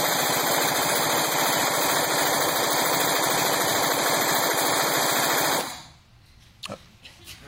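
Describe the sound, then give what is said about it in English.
Rapid automatic gunfire from a gun whose status as a machine gun is in dispute: one loud, unbroken burst of fire lasting about five and a half seconds, then it stops abruptly. “Hold on. The Supreme Court is trying to decide if that gun is a machine gun?”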